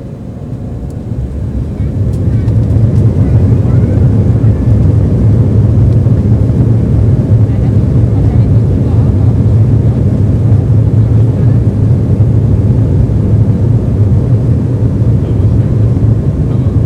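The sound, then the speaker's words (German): An airplane taxiing toward the runway before a return flight to Vienna gives off a deep, steady engine rumble that swells during the first two seconds, then holds a constant droning level. “Schon sind wir wieder unterwegs zur Startbahn und machen uns auf den Rückflug nach Wien.”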